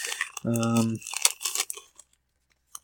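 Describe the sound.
A Magic: The Gathering booster pack's foil wrapper is torn open, giving bursts of sharp crinkling and ripping. A brief hummed voice comes first, and the rustling trails off into quiet.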